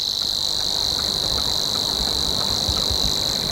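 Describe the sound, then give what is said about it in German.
A Savi's warbler sings its reeling song in reeds: a continuous, high, insect-like buzzing trill that holds steady and unbroken throughout. “den Rohrschwirr, der dann eher das Schilf mag und ein bisschen wärmer klingt, so hier.”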